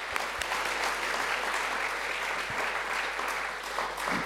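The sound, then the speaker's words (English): An audience applauds to welcome the next guests at a festival session in a hall, with dense, steady clapping that continues evenly throughout and no voices over it. “And now if you could put your hands together and welcoming our next guests.”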